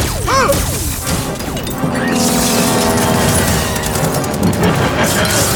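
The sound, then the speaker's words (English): Alien weapon fire in a science-fiction battle: a few warbling electronic zaps at the start, followed by a dense, loud, sustained roar of crashing noise. “The human has a weapon. Please, you must help me. How do you know who I am? Fire weapon!”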